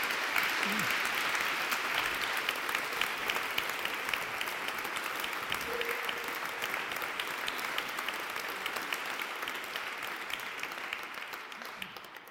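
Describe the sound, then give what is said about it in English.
Sustained audience applause welcoming a speaker to the stage at a talk, a dense, steady wash of many hands clapping that holds evenly throughout and fades away at the very end. “So could I ask you to give a very, very warm welcome to Charles Eisenstein.”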